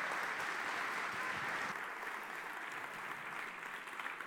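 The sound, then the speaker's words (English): Faint, steady audience applause welcoming a guest speaker, a continuous wash of clapping that thins a little toward the end. “Would you put your hands together and welcome Dr. Ed Stetzer.”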